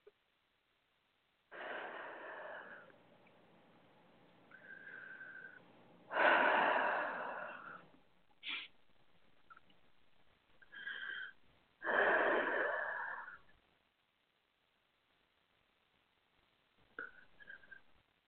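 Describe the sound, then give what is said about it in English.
Deep, wheezy breaths drawn in and let out in several separate, drawn-out rushes of air, with pauses between them and a fainter breath near the end. “Nice deep breath.”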